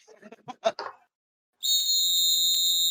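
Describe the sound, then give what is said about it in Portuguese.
A referee-style whistle gives one long, shrill, unbroken blast, starting right after a short stretch of talk and holding steady to the end. “Juizão apitou, infelizmente não é o final de jogo de Vasco Fluminense, só o final do mais quatro.”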